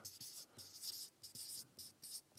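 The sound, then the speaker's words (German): A pen or marker scratches across a surface in many short, quiet strokes separated by brief pauses. “Und oben die Spitze ist die, schreibe ich jetzt mal über die Kante hinaus”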